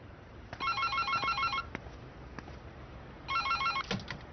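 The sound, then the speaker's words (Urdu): A telephone rings in two bursts of fast electronic trilling separated by a pause of about two seconds. The ringing is moderately loud over a faint background with a few soft clicks. “بات سنو، پہلے جا کر ٹیلی phone اٹھاؤ”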